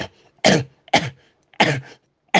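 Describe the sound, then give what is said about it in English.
Forced coughs from a person during a deliverance prayer: a few short, harsh bursts separated by brief silences, with the last cut off at the end. “Now, I want you to cough.”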